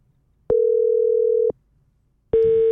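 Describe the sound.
Telephone tone heard while placing a call: a steady, mid-pitched electronic tone sounds for about a second, falls silent, then starts again with a harsher, buzzier edge.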